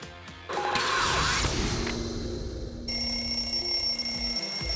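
An alarm clock rings as a wake-up effect. A whooshing crash comes first, then a steady, piercing, high-pitched ringing tone that grows louder and holds to the end.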